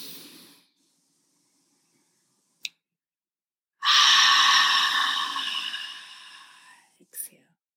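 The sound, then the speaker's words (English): A deep inhale during a guided breathing exercise: a loud, airy hiss of breath that lasts about three seconds and gradually fades. A short click comes before it and a brief breath sound follows. “We're going to inhale in on four.”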